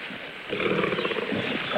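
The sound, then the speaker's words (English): A lioness roars and snarls while fighting a man on a jungle floor, a rough, low, growling roar that swells louder after a quieter opening and stays harsh to the end. “The lioness drops on her back, and Tarzan tumbles over her, stabbing repeatedly. She paws at him, and they thrash, intertwined on the jungle floor.”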